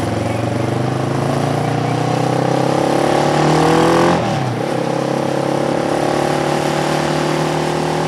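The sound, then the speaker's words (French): A two-stroke engine revs hard with a dense, buzzing drone, holding high and climbing slightly before dropping sharply for a moment and then picking back up to a steady high pitch. “cette bonne odeur d'échappement, c'est du deux temps.”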